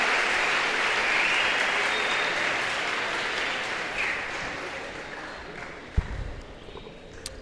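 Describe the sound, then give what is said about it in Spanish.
Applause for classmates: a sustained, dense wash of many hands clapping that starts full and slowly thins and softens toward the end. “Démosle un aplauso a todos los compañeros.”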